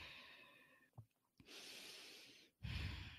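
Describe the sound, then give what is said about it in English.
A slow, deep breath in and then out, taken as a calming pause before a spoken prayer: a long airy inhale followed, after a brief gap, by a louder, fuller exhale, with no talk. “So deep breath in, deep breath out.”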